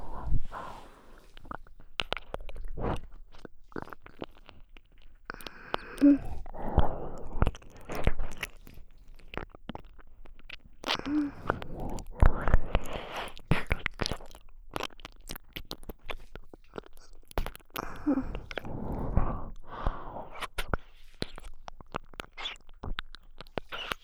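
Close-up ASMR ear nibbling: wet mouth clicks, soft bites and crunchy chewing-like sounds arriving in many irregular bursts, with no talking.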